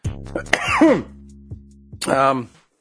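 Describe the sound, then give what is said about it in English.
Coughing follows a deep breath from a Spiromax budesonide-formoterol inhaler. A few loud, harsh, voiced coughs and short throat-clearing catches come in quick succession, with no other sounds. “I'm just coughing because I took a deep breath of this URS Spiromax.”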